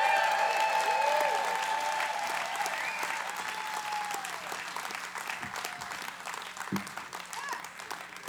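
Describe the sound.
An audience applauds to welcome a bluegrass band at the Grass Valley Center for the Arts: dense, sustained clapping that is loudest at first, then gradually thins and softens.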